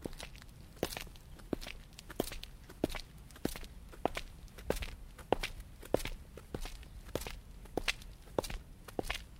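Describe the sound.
Footsteps walking around an exposed-concrete college building and into its inner courtyard, many crisp, evenly spaced steps at a steady walking pace, with no voices.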